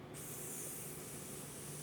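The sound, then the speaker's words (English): Liquid pours out of a cup while a drink is mixed, a faint, steady hissing stream that runs unbroken for under two seconds with no talk. “How much am I pouring in, Danny? Out of this cup, how full?”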